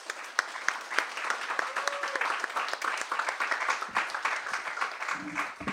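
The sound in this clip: Audience applause welcomes two speakers at an evening reading event: a dense, steady patter of many hands clapping that holds at an even level throughout.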